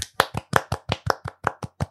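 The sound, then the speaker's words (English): Hands clapping in a steady, evenly spaced series of about ten sharp, crisp claps, each one distinct with short silences between, played alone with no talk. “That's clapping, by the way. That's clapping.”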